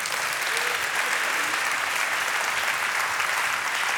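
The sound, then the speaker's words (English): Audience applause as a man named Mark comes up to speak: a loud, steady wash of many clapping hands holding an even level from start to end, with no voices over it. “Give Mark a big round of applause, folks.”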